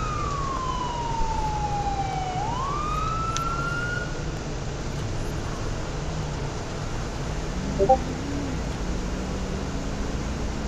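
A police car siren in a police video game, heard as one wail that sweeps down in pitch and then climbs back up. It plays over a steady roar of engine and road noise, and a fainter rising tone comes later.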